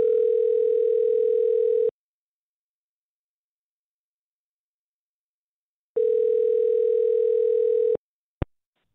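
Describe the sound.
Ringback tone on a telephone line while placing a call: two long, steady tone bursts separated by several seconds of silence, then a short sharp click at the end.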